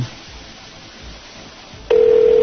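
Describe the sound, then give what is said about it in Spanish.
A telephone ringing tone on a call sounds after a stretch of low hiss: a loud, steady, even tone starts abruptly and holds to the end. “Le están llamando.”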